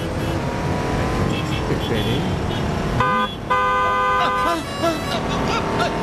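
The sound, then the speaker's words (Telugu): A car horn honks a few short times over a running engine, with voices talking around it. “మీరే కంగారుగా నడుస్తున్నారు, horn కొట్టినా మీకు వినిపించడం లేదు.”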